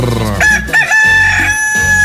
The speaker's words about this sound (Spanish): ¡Ah, qué bonito canta mi gallo! ¡Qué chulo de pechocho canta mi gallito!